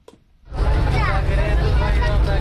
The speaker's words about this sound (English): Driving through Kabul, we pass a school.